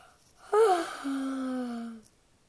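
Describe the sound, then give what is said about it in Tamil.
A voice imitates a yawn in one drawn-out breath, opening with a brief higher gasping onset, then settling into a long, low, steady hum that fades out, fairly quiet and alone. “அப்படின்னு கொட்டாவி விட்டுக்கிட்டே இருப்பார்.”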